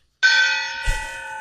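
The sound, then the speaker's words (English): A gong, given as a housewarming gift, is struck once and rings out with a bright, shimmering metallic tone that sustains with a slow decay, with a dull low thump partway through. “That's my gong.”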